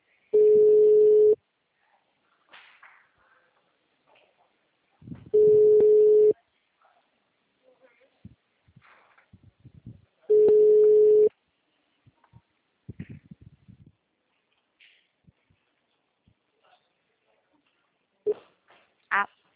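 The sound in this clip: Telephone ringback tone while a call waits to be answered: three long, steady, mid-pitched tones, each about a second long, spaced roughly five seconds apart, with faint scattered sounds in the gaps.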